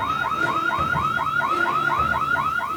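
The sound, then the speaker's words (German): A loud system alarm sounds with a rapid, unbroken string of many short rising chirps at a steady, insistent pace. It is alone, with no talk over it. “Was ist denn jetzt los? Systemalarm. Fast ein bisschen laut.”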